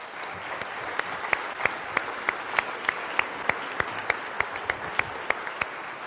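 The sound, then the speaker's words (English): A church audience applauds a guest speaker coming to the pulpit. Dense, even clapping runs throughout, with sharper individual claps standing out at intervals. “I can only understand that applause as the triumph of hope over experience.”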